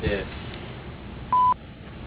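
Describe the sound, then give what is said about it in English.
A voicemail beep after a recorded greeting: a single clean, loud pure tone lasting about a fifth of a second, preceded by the tail end of a voice and followed by quiet line noise. “Please leave a detailed message after the beep”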